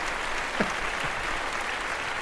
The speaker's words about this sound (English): Big applause.